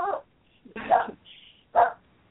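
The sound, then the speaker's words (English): Dog barking: three short, separate woofs with quiet gaps between them, moderately loud. “That's my dog, Normandy.”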